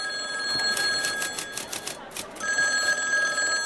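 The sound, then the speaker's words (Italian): A telephone bell rings in a London office in 1954, a rapid rattling trill of many quick strikes lasting under two seconds over a steady tonal background. “abbiamo deciso di lasciar suonare ancora per qualche minuto quel telefono”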